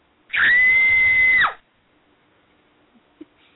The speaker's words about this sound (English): As soon as she can, I told her just to scream.